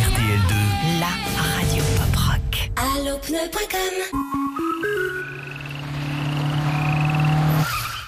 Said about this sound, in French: Cette petite grenouille a eu beaucoup de chance de croiser la route d'un pneu Michelin Cross Climate. Michelin Cross Climate, sur sol mouillé, il freine aussi sec.